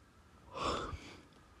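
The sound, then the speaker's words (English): A single human yawn, a soft breathy exhale that swells and then fades, fairly faint and heard alone. “Sorry, I yawned.”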